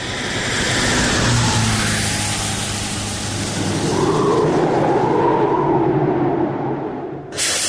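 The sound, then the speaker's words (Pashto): A lorry arrives on a cold, windy desert roadside, its engine a loud, continuous, steady roar that holds throughout and dips briefly near the end. “یوه لارۍ خو راغله”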